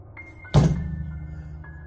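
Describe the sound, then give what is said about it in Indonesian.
A heavy impact as a hut door suddenly bursts open as if kicked in: one loud thud with a short booming decay, while a thin high tone persists faintly through the background. “Suara benturan terdengar. Suara pintu gubuk yang tiba-tiba terbuka seperti didobrak.”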